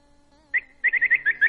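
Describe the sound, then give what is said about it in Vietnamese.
Birds chirping: one high chirp, then a quick series of several more in a lively rhythm, following a soft sustained tone. “Nghe chim kêu đã không? Nghe chim kêu đó.”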